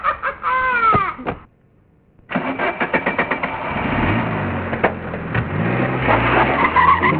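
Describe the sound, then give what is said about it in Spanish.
Tires screech from a modern luxury car as it skids, a wavering high squeal that cuts off into a short silence, then the engine revs in a quick series of loud bursts and keeps roaring steadily to the end. “Soy un carro muy lujoso y moderno, y lo que me encanta es hacer mucho ruido y contaminar.”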